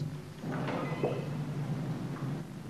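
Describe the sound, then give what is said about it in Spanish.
A door at the far end of a barred hospital corridor opens with a short, faint creaking scrape over a low steady hum. “Se abre la puerta del fondo.”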